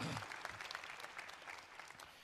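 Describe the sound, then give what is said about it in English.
A church audience gives a round of applause, soft and even clapping that continues quietly throughout. “So give yourselves a round of applause for doing that together.”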